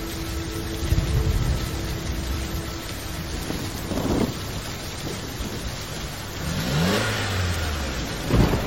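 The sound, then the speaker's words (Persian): A white car comes in from the end of an alley and stops in steady rain. Its engine hum drops in pitch as it slows, over a constant hiss of rain and a low rumbling. “از ته کوچه یه ماشین سفید رنگ میاد، با فاصله از نعیم توقف میکنه.”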